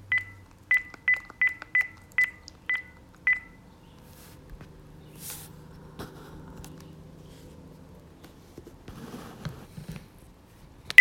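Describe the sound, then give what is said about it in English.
Touch-tone telephone dialing: a rapid run of short, bright keypad beeps in the first few seconds as a number is entered, then quiet line hiss and faint crackle with no talk. “Helps if you dial the number correctly.”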